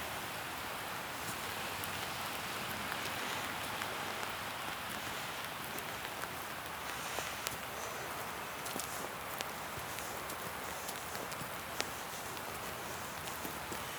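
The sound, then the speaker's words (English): Heavy rain pouring down outdoors: a dense, steady hiss of falling drops runs through the whole clip at an even loudness, with scattered sharper taps on top and no voices. “where it is absolutely chucking it down.”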